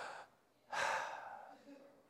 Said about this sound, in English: take a deep breath and go like this.